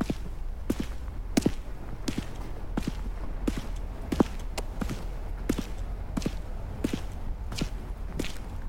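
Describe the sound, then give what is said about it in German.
Footsteps cross a street in a steady, evenly paced series of many sharp, crisp steps over a constant low background rumble, with no talk. “Kommen Sie, wir überqueren die Straße und laufen weiter geradeaus bis zur nächsten Querstraße.”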